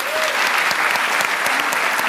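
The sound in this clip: Applause from a live audience welcoming speaker Scott Tong at an evening talk: a dense, steady wash of many hands clapping, even in loudness throughout.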